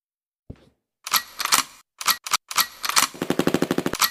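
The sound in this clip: Machine gun fire as a sound effect: several sharp, crackling bursts of rapid shots, the last a long, fast, even rattle of many rounds, with no talk over it.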